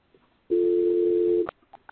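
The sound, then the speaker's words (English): Telephone dial tone heard while someone dials back in to a call: a single steady, even tone held for about one second, followed by a few faint clicks. “Hang on, just dialing back in.”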